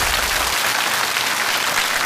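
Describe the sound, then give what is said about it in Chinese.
Audience applause welcoming a teacher to the lectern at a school talk: dense, steady clapping that fills the whole two seconds at an even, loud level, with no voices standing out. “一起来聆听他的人生一刻，掌声有请。”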